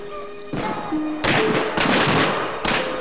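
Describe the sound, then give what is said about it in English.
Gunshots from a hunting party's shooting: four loud, sharp bangs at uneven intervals, each with a short rumbling decay. “Attracted by the shooting, Cornelius”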